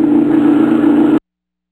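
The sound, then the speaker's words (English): Car engine roaring with the accelerator pressed: a loud, steady, low droning rumble that holds at one level, then cuts off abruptly into silence. “Take your feet off that accelerator.”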